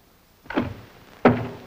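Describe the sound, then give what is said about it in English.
A dresser drawer is closed with two dull thuds, the second sharper and louder than the first, with no voices. “Seward observes Briggs closing a dresser drawer”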